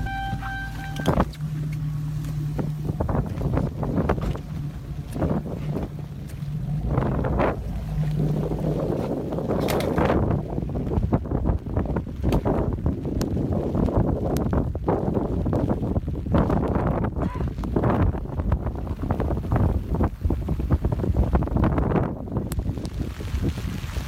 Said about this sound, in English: We're about to deploy it right on top of this bridge just off to my left. Be fully exposed to the wind here.